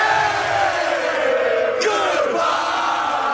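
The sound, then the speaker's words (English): Montreal Canadiens (Habs) hockey fans cheer and yell outside the Buffalo Arena after an overtime win, a dense, continuous roar of many shouting voices that holds a steady, loud level throughout. “Outside the Buffalo Arena, Habs fans cheered madly.”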